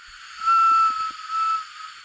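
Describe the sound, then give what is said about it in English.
A small toy whistle is blown once, giving a thin, breathy, steady tone that lasts about a second over a constant hiss. “But I like my sad whistle.”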